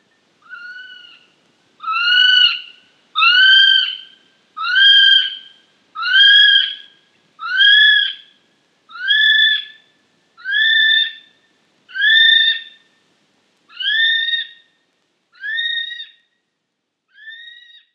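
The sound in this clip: A kiwi bird calling: a long series of about a dozen shrill, evenly spaced whistled notes, each roughly a second long and rich in overtones. The notes grow slightly fainter toward the end.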